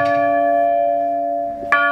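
The smallest of several tower bells of different sizes is struck, giving a bright, loud metallic tone rich in overtones. It rings and slowly fades before a second strike near the end sounds again.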